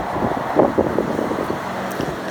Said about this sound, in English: So let's walk now towards the Paragon and towards the traffic noises and up Addington Street.